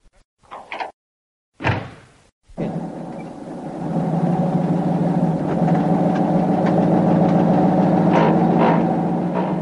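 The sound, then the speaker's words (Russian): A black open-top Opel Kapitän car drives through town streets, its engine giving a steady, low droning hum that holds evenly after a few brief knocks at the start. “Черный «Опель-капитан» с открытым верхом бежал по знакомым улицам”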